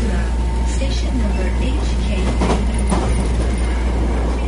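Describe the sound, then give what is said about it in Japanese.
An electric Hankyu line train rumbles steadily during a ride, a constant low drone with light rattles and creaks, while people talk indistinctly beneath it. “電車に揺られること15分、小林さんは阪急線東向こう駅を降り立ちます。”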